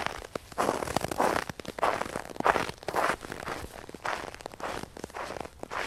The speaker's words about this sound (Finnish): Kävelystä kuulee heti, että joku on liikkeellä nuoskasäällä.